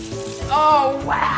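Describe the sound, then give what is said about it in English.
Water running from a sink tap in a kitchenette built into an old dresser, a steady broad hiss throughout, with a voice briefly exclaiming over it. “Have you ever seen an old dresser be turned into a cooktop and a sink before? I think that's the first. Never. Sure. The water works. Try it.”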